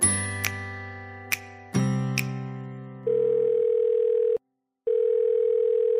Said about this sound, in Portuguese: Bora ligar pro Amaral.